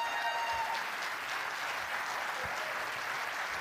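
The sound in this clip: An audience applauds to welcome a couple, Clayton Kerr and his wife Taylor, producing a continuous, fairly soft roar of clapping that stays even from start to finish.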